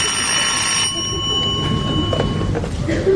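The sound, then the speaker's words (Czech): A telephone ringing in a steady, bright electronic tone, loudest in a first burst and then continuing more softly before fading out, over faint background noise. “Vemte to, někdo volá.”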